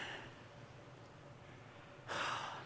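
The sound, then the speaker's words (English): A church audience takes a deep breath together, heard as a long, soft, breathy hiss that swells into a louder rush of air near the end. “No, like seriously, I want us to take a deep breath. Here we go. That feel good? One more.”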